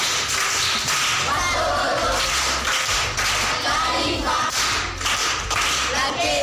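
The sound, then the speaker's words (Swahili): A group claps for a pupil who answered correctly at a primary school session. The clapping is dense and steady, with a regular rhythmic pulse running throughout. “Amepata. Makofi kwa mjomba.”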